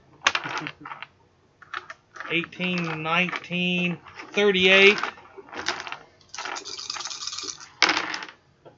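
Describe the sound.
Dice clatter on a table during a tabletop roleplaying game, a few short rattling rolls scattered between people talking.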